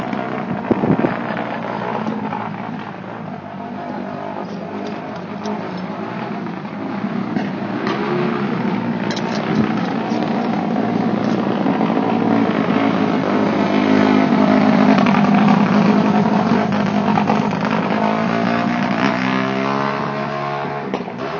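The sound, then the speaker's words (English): An engine drones steadily as a vehicle rides a wheelie across a room, a continuous buzzing roar that holds fairly level for about twenty seconds before easing slightly. “he's supposed to do a wheelie all the way across”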